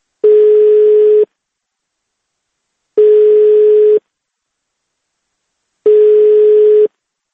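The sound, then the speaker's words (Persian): A telephone tone heard when calling a number: three steady, mid-pitched beeps, each about a second long, evenly spaced with silence between them. “تکرار به تکرار به وی زنگ میزدیم تا با خود وی نیز گفتگو کنیم، ولی هر دفعه از آن طرف خط این صدا را میشنیدیم.”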